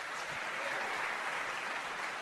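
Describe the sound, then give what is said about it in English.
Audience applause during the cast introductions at a live show: a steady, fairly faint wash of many hands clapping at once, continuous throughout with no voices on top. “I think the applause-o-meter jumped really high on that one.”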